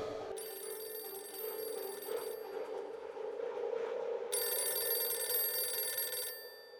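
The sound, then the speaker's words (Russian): A telephone bell rings insistently in two long, bright trilling bursts separated by a pause, over a low steady hum. “Платон зашаркал к настырно трезвонящему телефону.”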